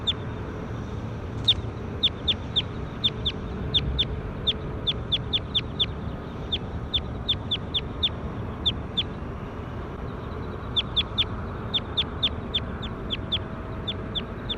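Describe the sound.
Repeated bird calls: many short, sharp, high-pitched chirps in irregular bursts with gaps between them, faint over a steady background hiss.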